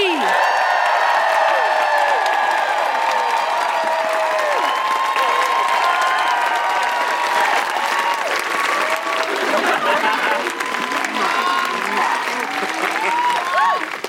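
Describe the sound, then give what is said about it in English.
Audience at a live feminist comedy show applauds and whoops throughout, a dense, steady wash of clapping with rising and falling cries running over it. “Please put your hands together and make enormous woohooing noises for Alex and Amy.”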